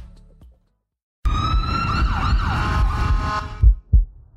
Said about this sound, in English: You hear that? That's the Lippmann Court Digital Stethoscope, removing background noise so you can focus on the sounds that matter.